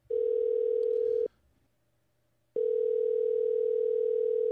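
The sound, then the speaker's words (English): An outgoing telephone call rings: two long, steady electronic tones separated by a pause of about a second, each loud and unbroken, with no voices. “We're going to call him. All right. Here we go. I'm calling.”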